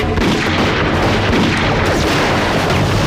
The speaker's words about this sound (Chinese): 停止射击，节省子弹！